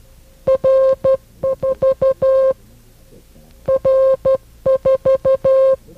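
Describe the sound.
Morse code tones spelling out the number 4/10: a steady mid-pitched beep keyed into quick dots and longer dashes, arranged in clusters with a longer gap midway through.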